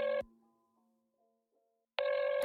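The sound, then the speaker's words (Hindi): A telephone ringback tone sounds as a call is placed. A loud, buzzy tone burst cuts off, faint fading tones follow, and then the loud tone starts again. “ऐसे phone करता हूँ एक second.”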